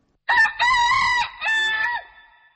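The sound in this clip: A rooster crowing: one loud, drawn-out crow in several harmonic segments that ends with a fading tail, with no talk over it.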